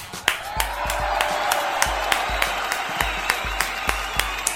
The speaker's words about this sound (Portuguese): E aí, ó, o que, que eu tô fazendo aqui? Tô batendo palma pra Globo.